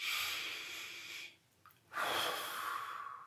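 A slow, deep breath, heard as two long, airy breathing sounds separated by a short pause. Both are soft and steady, and no one speaks.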